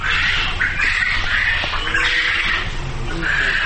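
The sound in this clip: Poultry at a farm squawking in a loud, continuous chorus, with overlapping harsh calls and no pauses throughout.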